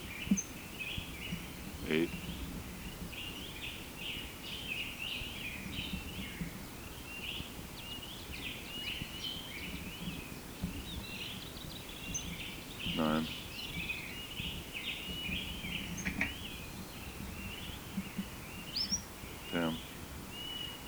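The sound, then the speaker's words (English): A bird giving short position call notes instead of song: a few brief, sharp notes spaced several seconds apart, faint over a steady high-pitched background hiss. “Bird had been giving song syllables at 5 to 5. Now he's only giving position notes.”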